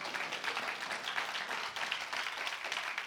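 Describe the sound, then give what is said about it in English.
A church audience applauding on Resurrection Sunday: dense, even clapping that holds at a steady level for a few seconds without talk. “Come on, give the Lord a hand praise.”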